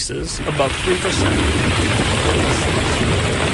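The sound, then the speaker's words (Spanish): Heavy, torrential rain pours down in Valencia, Spain, making a dense, steady roaring hiss that fills the whole clip without a break. “Este es el sonido de las intensas lluvias en España.”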